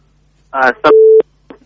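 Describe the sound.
A short, steady telephone line beep sounds as a listener's call on the Afghan peace topic is put through, with brief voice fragments just before and after the tone.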